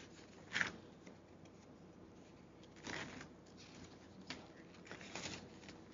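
Faint rustling of papers being shuffled at a meeting, a few soft, scattered bursts of handling noise over a quiet background.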